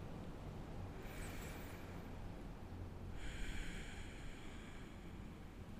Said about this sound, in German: Und dann nimm hier nochmal zwei, drei letzte tiefe und vollständige Atemzüge.